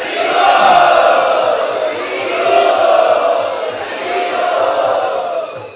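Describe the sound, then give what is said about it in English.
An audience chants loudly in unison to welcome a senior spiritual teacher, the voices rising and falling in three swelling waves of sustained chanting. “We would like to welcome him by loudly chanting,”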